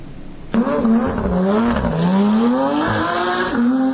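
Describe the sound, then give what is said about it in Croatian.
A race car on a hill-climb track about 3.8 km long bursts in loudly and revs hard, its engine pitch climbing and dropping repeatedly through gear changes. “Zvuk motora, miris benzina i adrenalin ispunili su danas stazu između Sedre i Ostrošca.”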